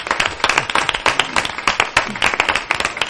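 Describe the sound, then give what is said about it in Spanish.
Audience applause rises from a small crowd as many individual hand claps overlap in an uneven, continuous patter. The clapping stays fairly loud and steady throughout. “Un aplauso. Muy fuerte, sí. Sí, un aplauso.”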